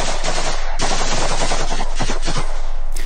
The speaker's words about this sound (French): est abattu, froidement exécuté d'une rafale d'armes automatiques